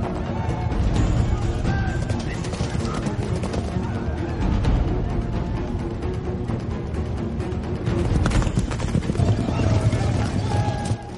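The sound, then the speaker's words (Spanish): Horses gallop along a winding mountain path with riders on their backs, producing a dense, continuous rumble of hoofbeats that stays loud and steady throughout. “los jinetes se aproximan. Cabalgan por un camino serpenteante que atraviesa una zona montañosa.”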